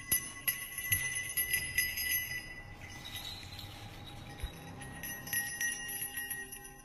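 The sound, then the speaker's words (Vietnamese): A bell jingling at a gate gives bright, high, metallic tinkling. Many quick strikes ring on and off over several seconds, with a slightly quieter stretch in the middle. “Tiếng chuông leng keng ngay đầu cổng.”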